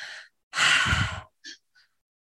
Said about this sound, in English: So one of our breath patterns is called the tri-active breath. So it's two in, one out.